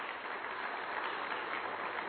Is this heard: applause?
yes